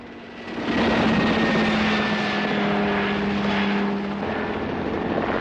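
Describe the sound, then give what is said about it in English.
A helicopter swoops and banks, its engine and rotor a loud, steady whirring drone with a humming tone. It swells after a moment and eases slightly toward the end. “Harry stands up gawping in the passenger seat of the Jeep as the chopper rolls up and down, then banks one way, then the other.”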